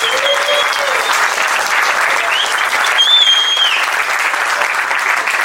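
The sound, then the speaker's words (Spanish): Audience applause at a rap battle event: dense, steady clapping from a large crowd that holds at an even loud level throughout, with no pause. “Así que un aplauso fuerte para todos”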